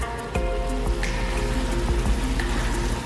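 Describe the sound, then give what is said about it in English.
Sizzling of a large batch of fresh spinach added to a hot pan for a gnocchi dish and cooking down, a steady crackling hiss with scattered small pops. “And now we're going to add our spinach. I know you're saying, Chef Troy, that's a lot of spinach. You know, spinach cooks down to nothing.”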